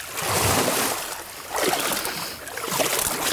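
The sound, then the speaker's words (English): Swamp water sloshes and splashes as a man wades through it while looking for alligator snapping turtles. The water swishes in three loud surges of steady splashing, one roughly for each stride. “Let me give you a little quick Turtle Man real quick. Let's see if this works. This is him walking through a swamp here.”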